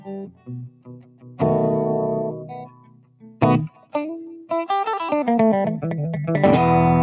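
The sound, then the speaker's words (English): A distorted electric guitar, run through effects, plays a halting series of notes and chords: a few sparse sustained tones with gaps, then a quicker run of single notes ending on a thick, fuzzy chord, with no voices. “I'm not sure how this guitar sounds.”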